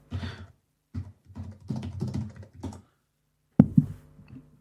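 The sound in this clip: Keystrokes on a computer keyboard as a search is typed into Google, coming in several bursts of rapid clicking separated by short pauses, with a louder clack to open the last burst and no talk.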